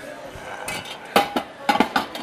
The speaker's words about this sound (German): Ich glaube, ich werde mir mal ganz kurz den Deckel schnappen, damit wir hier das irgendwann mal zum Kochen kriegen.